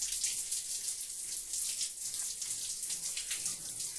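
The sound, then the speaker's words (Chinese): A running shower gives a steady, fairly loud hiss of falling water that holds level throughout, with no voices. “我在洗澡，等会出去再说。”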